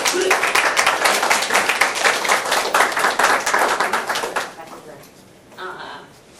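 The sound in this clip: Audience applause welcomes a guest speaker at the University of Nebraska Lincoln, dense steady clapping for about four and a half seconds that dies away quickly, followed by a voice starting to speak.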